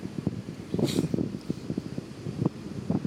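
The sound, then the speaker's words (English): Wind blows beside a pine tree in Kaivopuisto Park in Helsinki, buffeting the microphone. Many irregular low thumps and rumbles sit over a faint, continuous hiss. “I wonder how this wind will move around.”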